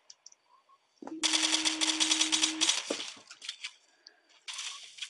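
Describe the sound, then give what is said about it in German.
Gunfire in a video game shooter with sniper fire: a loud, dense burst of rapid shots lasting over a second, then scattered sharp cracks and another burst near the end. “Oh shit, ich werde auch gesniped.”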